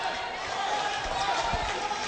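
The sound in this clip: A basketball free throw strikes the front of the rim with a single dull thud during a game, under steady crowd noise and commentary.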